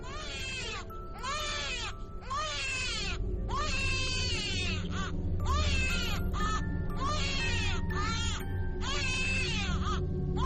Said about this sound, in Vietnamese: Bỗng dưng nó nghe giật mình là tiếng trẻ sơ sinh đang khóc.